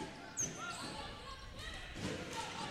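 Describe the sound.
Basketball dribbling on the court during a boys high school game, faint dull bounces under steady crowd noise and a commentator's voice.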